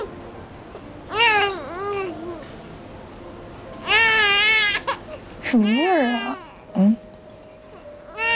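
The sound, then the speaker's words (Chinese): An infant cries in several wailing bursts of rising and falling pitch, broken by short pauses and brief whimpers, fairly loud against a quiet background. “没事啊，来，妈妈抱，没事没事啊，啊，不哭了。”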